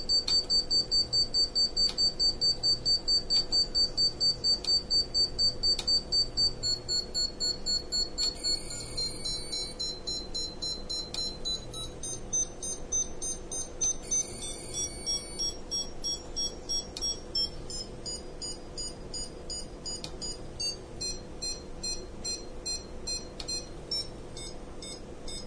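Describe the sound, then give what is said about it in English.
Rapid, steady high-pitched beeps from an SWR meter while an antenna's resonance is tuned, the tone shifting in steps across a continuous run of pulses, with no voices. “the beeping's increasing. SWR is 2.2021. So we're up to 2.2021. Now I'm going to bring the resonance back.”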